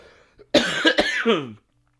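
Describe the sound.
A person coughs in one harsh, loud burst lasting about a second, with rough voiced pulses, during a coughing fit after a walk outdoors. No other voices.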